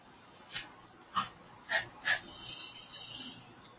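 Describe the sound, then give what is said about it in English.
A small dog snorts in four sharp, separate bursts, followed by a few fainter huffs, with no talking over them. “If you hear snorting, it's little Tulip, my dog, in the background.”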